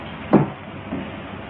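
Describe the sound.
A door being closed by hand, heard as a single dull thud with a faint softer bump shortly after, over a steady low background hiss.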